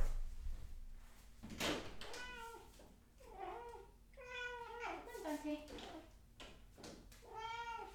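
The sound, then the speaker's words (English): A pet cat meows several times while begging to be let in. The high, drawn-out cries come in a cluster, alongside a person talking. “You can probably hear my kitty cat in the background. He's like begging to come in.”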